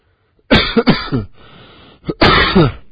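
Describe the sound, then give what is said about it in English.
Loud, harsh coughing in two fits: a rapid run of several coughs, a brief breathy lull, then another burst of heavy coughs. “Coughing in that thing.”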